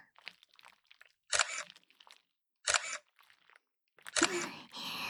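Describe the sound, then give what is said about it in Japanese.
A camera shutter taking photos: three sharp, loud clicks spaced out in time, with soft voice sounds between them. “ほら顔も撮っちゃうぞ。ちゃんとカメラの方見なさいね。”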